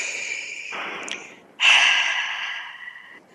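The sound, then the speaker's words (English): Deep breath drawn in, heard alone as a soft airy rush and then a louder, sudden whoosh of breath that tails off slowly. “So let's take a big breath together collectively”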